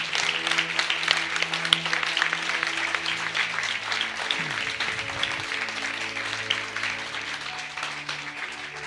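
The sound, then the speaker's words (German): Applause from an audience at a charismatic church service, dense and steady clapping that fills the whole stretch at an even level without easing off. “Lass uns ihm einen Applaus geben.”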